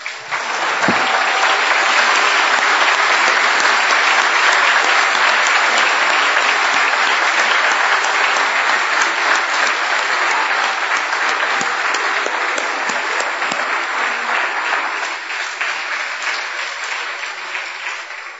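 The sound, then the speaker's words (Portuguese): Dense, loud applause from an audience at a religious supper service, offered in praise of Jesus. The clapping is steady and continuous for well over fifteen seconds, then eases a little near the end. “Vamos aplaudir a Jesus.”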